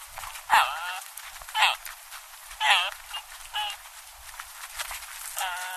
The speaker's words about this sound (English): This hungry Arabian oryx calf is a welcome sound in Wadi Rum these days, after the oryx was hunted to extinction here 80 years ago.